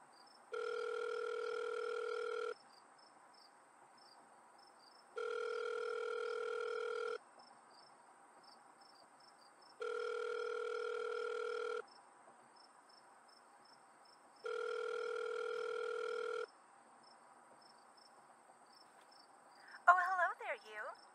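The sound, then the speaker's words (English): An outgoing telephone call produces a ringback tone: four long, steady electronic rings with silent gaps between them. A voice starts speaking just after the last ring. “Hold up, let me try and call Claire.”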